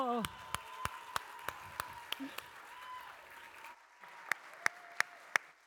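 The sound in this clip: Applause welcoming a comedian to the stage comes through as a steady series of sharp, evenly spaced single claps, faint overall, with a voice talking beneath them.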